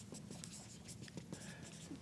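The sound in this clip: Faint scratching of writing on a board during a class, a quick series of short strokes under low background hiss.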